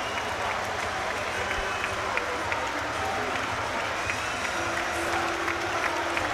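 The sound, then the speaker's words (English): A stadium crowd applauds the Wolves players after their 1-0 FA Cup win over Brighton. The clapping and crowd roar form a steady, dense wash under a commentator's voice. “And they will now head down towards the North Bank to take the applause there.”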